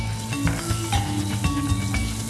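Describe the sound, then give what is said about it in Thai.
Red curry paste stir-frying in oil in a pot, with a loud, steady sizzle and the scrape and clatter of a utensil stirring against the metal. “ค่ะใส่พริกแกงเลย เพื่อจะผัดนะครับ”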